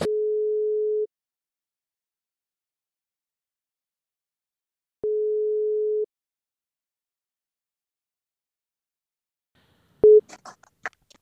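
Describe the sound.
A telephone ringing tone sounds while a call goes through: two steady, mid-pitched one-second tones separated by a long silence, then a third tone cut short as the call is answered and a voice begins.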